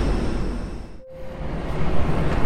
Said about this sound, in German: Ganz schön viel los hier am Flughafen Düsseldorf.